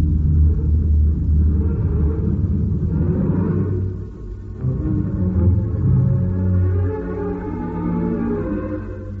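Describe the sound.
A vehicle engine at full throttle gives off a heavy, low, continuous rumble with steady droning tones, holding its strain with only a brief dip partway through.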